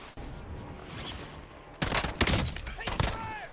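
Video-game gunfire bursts out after a quieter opening, several sharp cracks and rapid volleys in quick succession.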